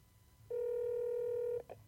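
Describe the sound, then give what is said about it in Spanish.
A telephone keypad tone sounds as a number is dialed: one steady electronic beep lasting about a second, then a brief second blip, both faint and heard alone. “Ahora estoy llamando a tu padre y tú puedes explicarle esto.”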